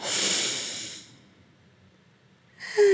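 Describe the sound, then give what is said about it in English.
A deep breath is drawn in through the nose as a rough, airy hiss lasting about a second, then fades into near silence. Another breathy sound starts just before the end. “Inhale through your nose. And exhale through your mouth.”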